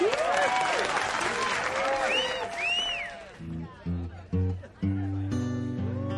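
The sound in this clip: An audience applauds and cheers to welcome a performer, with about three seconds of loud clapping and whooping voices. The applause then fades as sparse piano notes begin.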